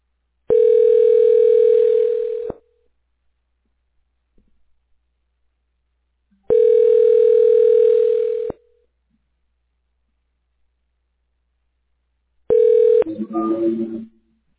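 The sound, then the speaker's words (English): A telephone ringback tone plays while a call connects through an internet phone service: three steady, loud tones about two seconds long, separated by silent gaps. The third tone is cut short by a noisy burst. “state your name after the tone, and Google Voice will try to connect you.”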